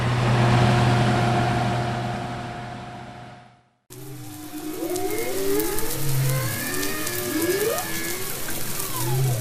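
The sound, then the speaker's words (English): Whales sing underwater off Queensland's Sunshine Coast in long sweeping, wavering tonal calls, over a constant sizzling crackle of snapping shrimp. A steady droning hum plays first, then cuts off briefly before the song begins. “What you're hearing sounds like it's from another world, but it's actually just beneath the waves off Queensland's Sunshine Coast. It's the sound of singing whales, snapping shrimp, which sound a whole lot like a sizzling barbecue,”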